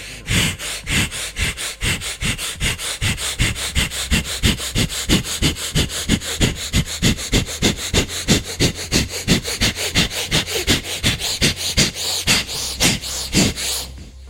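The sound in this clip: Forceful breath-of-fire breathing through the nose during a guided meditation: many rapid, sharp nasal exhalations in a steady, even rhythm. The bursts are loud and continue without pause throughout.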